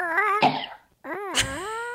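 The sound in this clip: Two hoarse, strained coughs, each with a raspy voiced tone and a noisy burst, separated by a short silence.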